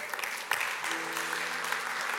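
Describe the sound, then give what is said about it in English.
An audience applauds during a church service. The clapping is soft but steady and continuous, with a few sharper individual claps standing out early on. “Now, you can clap.”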